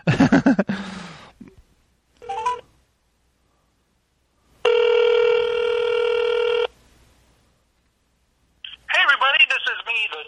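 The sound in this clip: A phone call goes out: short dialing tones, a pause, then one long steady ringing tone, followed by a recorded voice starting to speak.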